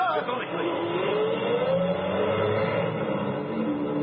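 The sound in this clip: Truck engine revving as the truck drives away, a steady, muffled motor drone with a rising whine, narrow and thin in tone.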